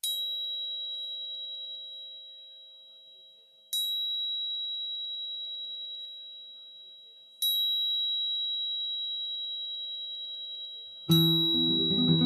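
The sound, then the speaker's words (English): Two tuning forks tuned to 528 and 639 hertz ring with pure, sustained tones. They are struck again every few seconds, and each bright attack fades slowly into a steady, shimmering hum. No voices are heard. “The sound you're hearing is from my tuning forks, which are both solfeggio frequencies, specifically 528 hertz and 639 hertz.”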